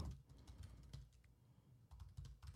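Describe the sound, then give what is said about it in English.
Rapid typing on a computer keyboard, a faint, continuous patter of many quick keystrokes with brief irregular pauses. “I'm going to type. So that's all right, I can look it up people. While you're talking.”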